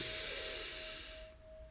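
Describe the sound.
A deep breath drawn in during a guided meditation, heard as a soft airy hiss that fades away over under two seconds, with a faint steady tone beneath it.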